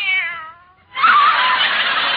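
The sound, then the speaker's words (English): A kitten gives a single, high, wavering meow, followed after a short pause by a loud, harsh, breathy rasp. “Oh, there you are, you cute little kitten.”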